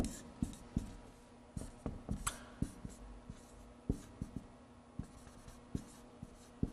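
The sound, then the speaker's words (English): Writing on a board: many sharp taps and short scratchy strokes in an irregular rhythm, fairly faint, with brief pauses between bursts. “So I'll finish writing these here.”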